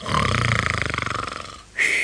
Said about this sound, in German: Hey, du! Du sollst nicht schnarchen!